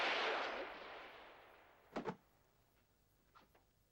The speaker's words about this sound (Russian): Прекрасный выстрел! Не правда ли?